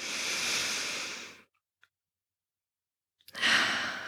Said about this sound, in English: And take the breath. And breathe in.